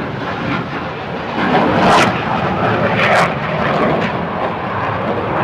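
An airplane, a 38, taking off produces a loud, broad, steady engine roar that swells slightly in the middle and holds throughout.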